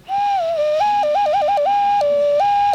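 An ocarina-like whistle blown through a small hole gives a loud, pure tone that flips between two close pitches in a quick, irregular pattern of short and held notes.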